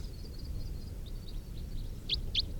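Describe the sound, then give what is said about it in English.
Wild birds call as they fly over. A faint run of thin, high chirps is followed by two clearer calls near the end, all over steady low background noise. “A couple of wild birds flying over.”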